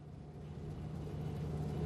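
A car drives off with a low, steady engine rumble that swells slightly, faint and brief.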